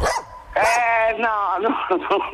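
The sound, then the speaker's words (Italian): Dog barking: a few sharp, high-pitched barks and yips, loud and tonal, in quick succession with short gaps between them. “Si sente un cane che abbaia, sarà il tuo.”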